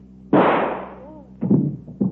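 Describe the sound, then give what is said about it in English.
A gunshot as a woman shoots herself: one sharp, loud bang with a long fading tail, followed by a few quieter thuds. “Shot herself.”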